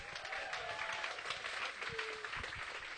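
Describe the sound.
Audience applause welcoming a speaker, a faint, even patter of many hands clapping with a few thin tonal whistles rising over it.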